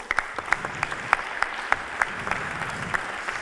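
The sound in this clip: Audience applause at a poetry slam as a speaker is welcomed onto the stage: sustained, even clapping with a steady run of sharper individual claps standing out.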